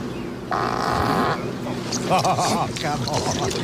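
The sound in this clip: A loud, drawn-out fart from a golfer, caught on the microphone he wears during play. A steady buzzing tone is followed by voices reacting.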